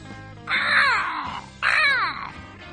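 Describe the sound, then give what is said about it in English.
Two loud, harsh, rasping caws from a crow where crows were going after pizza outdoors, each drawn out for about a second, separated by a short pause. “There's one crow goes, yeah, yeah.”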